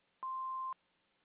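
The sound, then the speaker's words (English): A voicemail beep sounds before a message is recorded: one steady electronic tone of about half a second, clean and alone against quiet line hiss. “Please leave a message after the tone and we'll get back to you just as soon as we can.”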